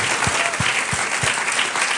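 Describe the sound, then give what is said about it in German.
Church audience applause during a German-English service, a dense, loud burst of clapping with a few regular low thuds pulsing beneath it. “Gib Gott mal einen Applaus. Danke Gott dafür. Give God a hand.”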